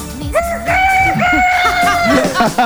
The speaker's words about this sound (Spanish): Y el gallo.